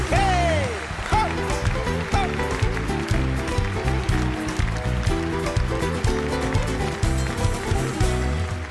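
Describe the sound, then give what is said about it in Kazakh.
An audience clapping in rhythm in support, the steady beat of hands running under loud music with a singing voice at the start. “жақсылап шапалақтап отырайық, құрметті ағайындар, қолдау көрсетіп.”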